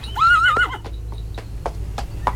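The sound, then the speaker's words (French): A small red pony walks at a slow pace: a brief whinny at the start, then a steady series of sharp clip-clop hoof strikes at an even rhythm over a low background rumble. “Le poney marche au pas.”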